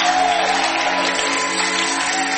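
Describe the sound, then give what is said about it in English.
Applause at a church service after a prayer, heard as a steady, dense wash of clapping and crowd noise over sustained tones, holding an even level throughout. “I think we should give God another applause.”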